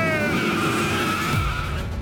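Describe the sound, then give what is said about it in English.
Race car tires skid and squeal along with a revving engine, a high, steady whine over a lower engine rumble that holds loud for the whole stretch without any talking. “Start your engine!”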